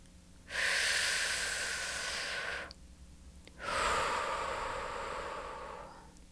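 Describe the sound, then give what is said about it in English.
A person takes a deep breath, heard as two long, airy breath sounds separated by a short pause. The second breath slowly fades, and both are soft and alone, with no speech. “take a deep breath.”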